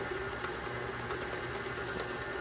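An electric mixer whirs steadily while beating dry ingredients, its motor a constant loud buzzing drone with no pauses.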